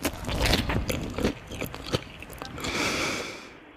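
Chewing and biting into food with sesame seeds, a run of crunchy, moist bites and mouth noises of varying loudness, easing into a softer, rustling stretch toward the end.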